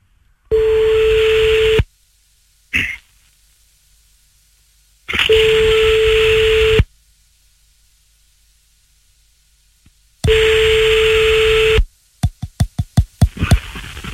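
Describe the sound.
A telephone redialing a number and ringing out: three long, steady ringing tones separated by pauses of a few seconds, followed by a quick run of sharp clicks.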